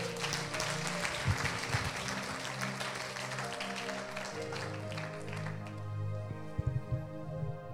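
Congregation applauding in church over sustained keyboard-like music; the quiet clapping holds steady, then thins out toward the end while the music carries on.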